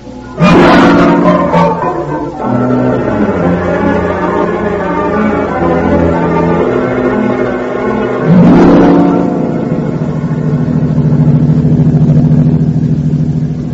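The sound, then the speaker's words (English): A car engine drones steadily while driving through fog, a loud low rumble throughout with two stronger surges, one near the start and another past the middle, and no voices. “Can't you drive just a little faster, Casey?”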